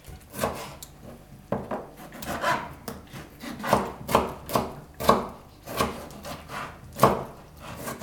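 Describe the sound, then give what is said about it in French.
Knife chopping a tomato on a board: many crisp, fairly regular cuts with short pauses between them and no talk. “Je vais aussi découper la tomate.”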